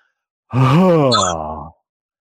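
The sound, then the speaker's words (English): A forceful voiced 'ha' exhale made while pushing the elbows to the sides during a breathing exercise. It is a single loud, sustained breath-sound of about a second, its pitch rising briefly and then sliding down. “You inhale and then push your elbows to your sides with the powerful ha.”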